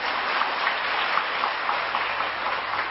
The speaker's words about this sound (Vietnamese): Vỗ tay.